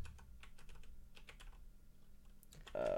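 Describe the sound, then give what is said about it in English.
Typing on a computer keyboard: a steady run of many quick, irregular key clicks at low level, with no talking. “Here, let me type it out for you.”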